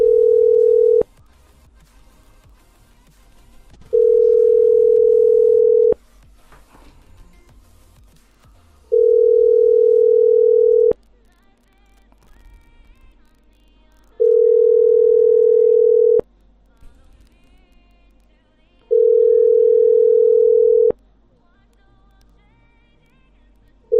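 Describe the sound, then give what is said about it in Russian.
Telephone tones sound as a dialed number goes through: a steady, mid-pitched beep repeats at an even pace, roughly two seconds on and three seconds off, with no voices. “Так, набираю по номеру...”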